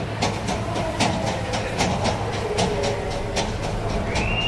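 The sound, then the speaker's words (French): Busy train station noise, with dense steady rumble and rhythmic clacking of rail cars running throughout, fairly loud and continuous, with no clear voices standing out. “C'est quand même assez bruyant ici, hein. Il y a plein de gens avec leurs valises.”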